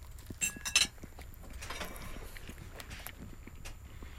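Knife and fork clink sharply on a plate: a few bright metallic taps near the start, then a soft, low shuffle of cutlery and plate noise that continues quietly.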